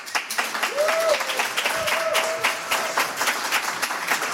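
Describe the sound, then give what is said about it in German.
Audience applause as a guitarist is welcomed onto a German stage show: dense, steady clapping throughout at an even loudness, with no speech over it. “Bitte machen Sie richtig viel Lärm für UJ Yara.”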